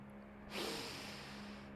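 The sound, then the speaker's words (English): A person takes one big snorting inhale through the nose, sniffing the aroma of a handful of dirt. It is a sudden, loud rush of breath that holds for over a second above a steady low hum. “Anyway, take a big snort of this dirt.”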